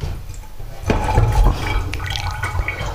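Water splashing and gurgling as something is rinsed out, with a fuller rush of liquid near the middle and lighter trickling and dripping before and after.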